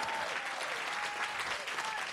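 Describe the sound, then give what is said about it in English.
A church audience claps hands together in a dense, steady burst of applause that stays loud and even throughout, with no voices rising above it. “Come on, clap one more time.”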